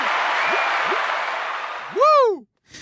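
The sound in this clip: A short celebratory jingle sound effect: a sustained, crowd-like wash with a couple of small rising chirps, then a loud swooping tone that rises and falls before a brief silence and a new burst.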